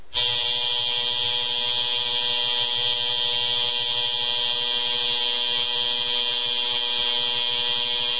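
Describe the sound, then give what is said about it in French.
A portable electric razor buzzes in a steady, bright, high drone that holds unbroken for the whole stretch, with a lower stuttering rattle pulsing underneath. No one speaks. “Oui, attendez, parce que j'ai ici mon rasoir. Alors attendez, je vais peut-être moi-même me raser.”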